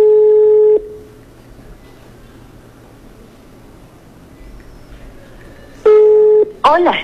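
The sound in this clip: A telephone call rings on the line. Two long, buzzy ringing tones are separated by a stretch of quiet line hiss, and a brief warbling electronic sound follows the second tone.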